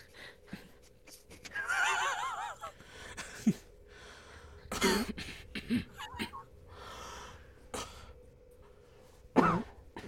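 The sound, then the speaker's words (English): A player voices a character's coughing: several harsh, uneven coughs and throat-clearing bursts spread across the stretch, mixed with breathy vocal sounds, fairly faint overall. “That's the character coughing.”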